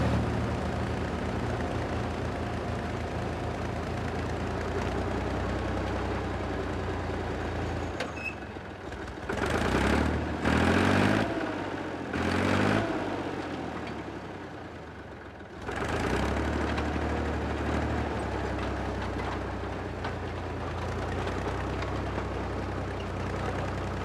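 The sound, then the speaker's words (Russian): A tractor engine drones steadily while tilling garden soil, a continuous low rumble that breaks midway into several loud, rough bursts before the even engine sound resumes. “Мужчина едет на тракторе, разрыхляя землю огорода, затем другие помощники сажают в землю семена.”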